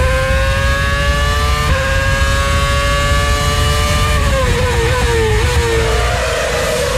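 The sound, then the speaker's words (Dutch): Formula 1 race car engines at the 2010 Turkish Grand Prix in Istanbul give a loud, high, continuous whine whose pitch steps down at a couple of points and then slides lower toward the end. “Grand Prix Radio. Formule 1. Flashback. Istanbul, Turkije. 2010. Nou, pak de afstandsbediening, zet hem harder.”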